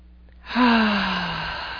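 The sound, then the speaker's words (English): A single deep breath taken during a guided meditation, a voiced, sighing exhale that swells quickly and then trails off slowly with a gently falling pitch over more than a second. “Nice deep breath.”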